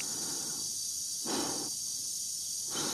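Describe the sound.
A man breathes calmly in a film scene while unplugging a computer: slow, airy breaths that rise as soft hisses at a couple of points over a steady faint background hum.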